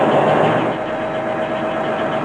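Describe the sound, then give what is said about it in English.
Truck engine idling after the truck has stopped: a steady, loud mid-to-low rumble with a faint constant hum, unchanging throughout, with no voices. “Stop the truck. I'll stop. And don't jump. Hold on. I'm stopping.”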